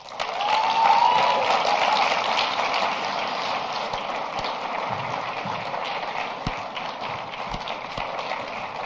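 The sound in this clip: A conference crowd applauds to welcome a speaker to the stage, dense clapping that swells early, then eases slightly and carries on evenly, with a brief whistle near the start.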